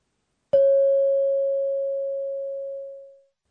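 A bus stop request bell on a city bus gives a single clear ding. Its steady, bright tone rings on alone for almost three seconds, then fades out quickly.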